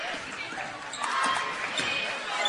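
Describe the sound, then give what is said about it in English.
Rhythmic basketball dribbling on a court during a high school girls' game between Livingston Academy and Macon County, steady bounces under a commentator's voice. “Not a lot of dribble handoffs again here from Macon County, trying to create some space offensively. Dribbling back near the logo.”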